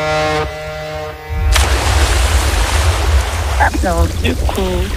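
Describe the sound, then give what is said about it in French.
Rushing, surging seawater as swimmers dive into the sea: a loud, steady wash of churning noise sets in suddenly after a short voiced tone, and a few brief squeaky chirps come later. “Bon, les copains, tous en maillot. D'accord. Et on va plonger. Et on plonge”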